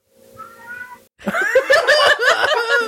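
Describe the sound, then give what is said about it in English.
A cat outside the window meows loudly in a rapid string of whiny, wavering cries that run into one another. “now we've got this fucking cat that just hangs outside the window while we record and goes, meh, meh, meh.”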